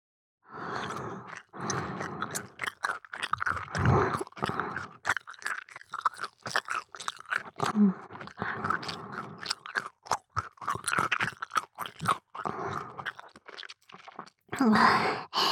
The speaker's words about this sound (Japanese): ガム噛んでると、唾もいっぱい出るんだよね。